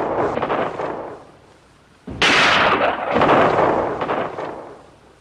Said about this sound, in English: He fires his rifle at some riders traveling along the pass.